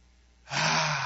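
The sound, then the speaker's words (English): A person takes a deep breath, a sudden loud rush of inhaled air that starts abruptly and holds steady to the end. “Everybody take a deep breath.”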